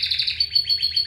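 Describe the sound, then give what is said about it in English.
A canary sings a rapid, continuous run of high chirping trills that repeat at a steady pace and hold an even loudness, with a faint low hum underneath. “This is the sound of a canary.”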